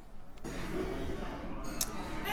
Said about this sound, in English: They're all going to come down now. This is the end. But this is the satisfying part of stage managers. Everybody loves ripping up the tape in the rehearsal room on the last day.